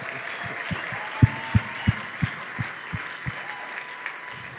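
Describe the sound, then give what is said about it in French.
A church audience applauding and acclaiming: a faint, steady wash of crowd noise with a run of rhythmic claps that grow gradually fainter. “Est-ce qu'on peut partager cette joie ensemble en acclamant le Seigneur?”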